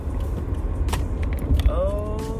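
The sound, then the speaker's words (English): A car being driven, heard as a low, steady engine and road rumble with a few brief clicks on top. “I'm driving and recording this episode, so that's dangerous.”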